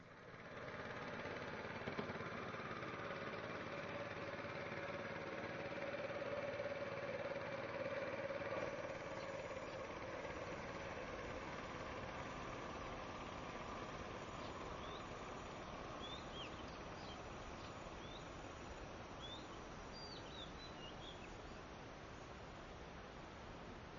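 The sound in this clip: A boat engine runs steadily on a river trip through the Irrawaddy delta, giving a continuous low, even drone and a broad wash of noise that stays fairly quiet and unchanging, with no talk.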